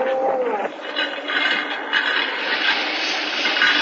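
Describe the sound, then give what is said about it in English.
A carriage rumbles across a lowered castle drawbridge, a steady, rough clattering roar with faint uneven knocks that continues throughout. “A huge drawbridge was lowered to admit entrance. The carriage rumbled across it”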